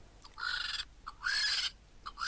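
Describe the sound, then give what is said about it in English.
Harsh screeching calls of a vulture: a few loud, drawn-out screeches separated by brief pauses, with a short faint note between the first two. No voices. “That is the sound of a vulture.”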